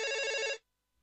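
A brief telephone ring as a caller phones in: one bright, trilling bell burst lasting about half a second, then cut off abruptly into silence.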